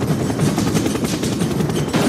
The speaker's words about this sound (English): Would you mind not shooting at the thermonuclear weapons?